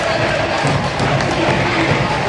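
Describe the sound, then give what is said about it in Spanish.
A stadium crowd at a football match applauds and cheers in a steady, broad wash of noise that holds at an even level throughout. “Y ahí está la asistencia del estadio en el marcador. Aplaudido ahora también por el estadio.”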